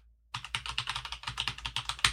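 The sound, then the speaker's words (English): Fast typing of an email address on a computer keyboard: after a moment of quiet, many crisp clicking keystrokes arrive in a quick, even patter, fairly loud and steady, with a sharper tap near the end and no voices. “I will now type my Mushroom FM email address and press tab. Confirm email edit. And type it in again.”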